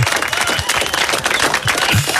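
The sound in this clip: Audience applause for women celebrating their name day, a dense, even clatter of clapping that holds steady for the whole stretch.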